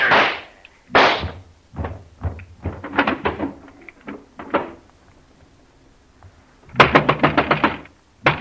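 Gunshots ring out during a confrontation: a few sharp, loud bangs spaced apart, then a rapid cluster of many cracking shots near the end, with no talk over them.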